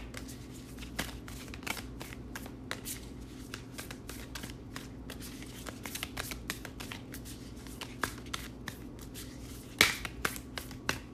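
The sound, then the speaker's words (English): Tarot cards being shuffled by hand: a soft stream of many quick riffling clicks and flicks, faint and irregular, with one sharper snap near the end and no talk. “Let's see if we can't get a couple more cards here for Capricorn.”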